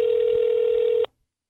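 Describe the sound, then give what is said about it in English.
A steady single-pitch telephone tone rings out as a call is placed on speakerphone. It holds level and fairly loud for about a second, then cuts off abruptly into silence. “I'm going to call him on speaker because we could do this a lot faster and we're wrapping up.”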